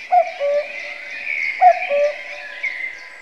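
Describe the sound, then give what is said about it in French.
A cuckoo calls its two-note cry twice, each call a higher note dropping to a lower one, clear and fairly loud over a steady, faint high hiss. “Le coucou, bien sûr, c'est une onomatopée. Le son qu'il fait lui a donné son nom,”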